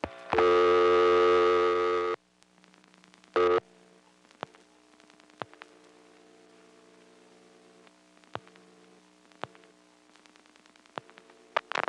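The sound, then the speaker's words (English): A rotary telephone dials the digit zero into a trunk line on an exchange. A loud steady tone and a short burst are followed by a long series of sharp pulse clicks over a faint hum. “The register will drop, and then I'll dial the last digit 0 directly into the trunk.”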